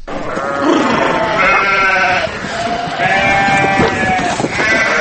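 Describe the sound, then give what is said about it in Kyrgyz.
Sheep bleat loudly as herders drive the flock out to summer mountain pasture after a harsh winter. The bleats are continuous and overlapping, with many voices at once. “Нокенде малды жайлоого чыгарып башташты, бирок чабандар айдап кетип жаткан мал койлор жылдагыга салыштырмалуу аз санда.”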